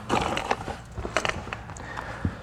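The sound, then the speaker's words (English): A metal wrench being handled, producing a few irregular clicks, knocks and rattles of the tool, with no talking. “This is a wrench, okay? Now, represents our work.”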